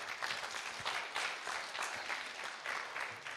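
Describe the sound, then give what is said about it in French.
Audience applause for a presenter at a meeting, a faint, steady patter of many hands clapping with no break. “C'est un gros boulot, hein, vous pouvez l'applaudir.”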